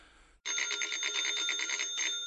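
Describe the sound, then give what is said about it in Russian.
A telephone rings with a loud, rapid metallic bell trill that starts suddenly after a brief quiet moment and continues steadily to the end. “Телефонный звонок прозвучал вовремя.”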